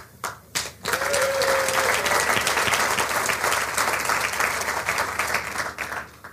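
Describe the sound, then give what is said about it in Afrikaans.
An audience applauds investigative journalists at a speech. After a few scattered claps, loud, dense, steady clapping sets in and carries on to the end. “Iemand al ooit so iets moois vir julle gesê? Iemand al ooit vir julle hande geklap?”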